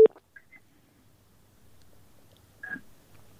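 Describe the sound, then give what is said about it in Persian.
Telephone line tones as a radio call-in listener's call drops: a short sharp beep at the start, then a faint low line hum, and another brief tone near the end before the line goes quiet. “بله تماس شنونده ما خیلی مشکل داشت و تماسشان هم قطع شد.”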